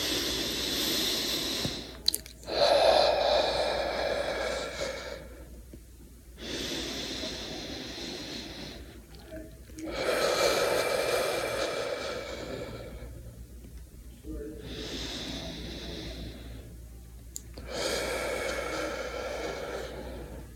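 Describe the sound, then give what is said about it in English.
Several slow, deep breaths taken as a calming practice, with long airy inhales and exhales alternating and short quiet pauses between them. “Very simple practice. A couple of deep breaths.”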